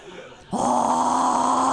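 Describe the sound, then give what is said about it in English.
A voice imitating a death metal growl: a sustained, rough, guttural roar that bursts in after a brief quieter moment and holds at a steady loudness to the end. “That's a death growl. That's a death growl. It's one of the conventions of death metal, you see.”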